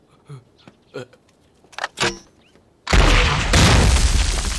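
A gunshot during shooting practice in a wartime setting: a few sharp cracks, then a sudden loud blast whose noisy roar carries on to the end.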